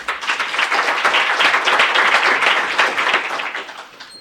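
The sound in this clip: Applause fills a legislative chamber as a guest in the gallery is welcomed. Dense, even clapping holds for about four seconds, then thins and fades at the end.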